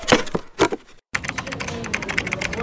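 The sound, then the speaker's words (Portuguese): Keyboard typing by a police inspector working on a document at a police post: a few louder keystrokes, a brief pause, then a steady run of many quick, light clicks. “Em Nova Jambulane, no posto policial, a inspetora Carmélia está a digitar um documento.”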